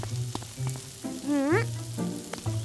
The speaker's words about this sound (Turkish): Karnabahar önceden piştiği için köfteler çok çabuk olacak. Yaşasın. Bak, bir yüzleri pişti bile.